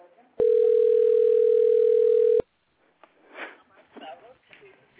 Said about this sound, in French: Patientez, nous allons vous mettre en relation avec un conseiller.